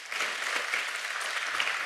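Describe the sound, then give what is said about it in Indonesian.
Steady, dense audience applause for a 70-year-old woman, an even wash of many hands clapping at constant loudness throughout, with no voices rising above it. “Kita kasih tepuk tangan, Saudaraku.”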